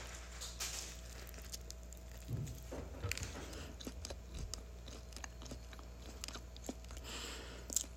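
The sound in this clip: Biting and chewing Kentucky Fried Chicken. Faint, crunchy bites and soft, moist chewing clicks come in an irregular pattern, with no talking.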